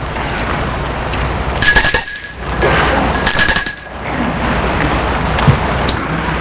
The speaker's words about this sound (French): Longe la cour pour aller sonner à la maison.